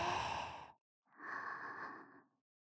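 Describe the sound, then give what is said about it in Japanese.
Deep, airy breathing during a calm breathing exercise: two long, soft breaths separated by a brief pause, each swelling and fading gently. “力を抜いて。ほーら、深呼吸よ。吸って、”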